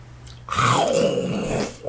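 Someone bites into a pineapple with a short, wet crunch, then lets out a sliding, drawn-out vocal groan that falls in pitch as the chewing continues.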